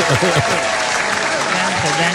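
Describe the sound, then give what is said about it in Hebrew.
A studio audience claps for contestants during a quiz game taping, with dense, steady applause throughout and voices calling out over it. “מגיע לכם כפיים”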